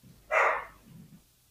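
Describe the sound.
A dog gives one sharp, loud bark, followed by a fainter, lower sound, and then quiet.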